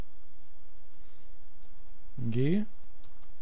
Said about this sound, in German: Klick auf Anwendungen, Zubehör, Terminal und folgender Befehl wird eingegeben: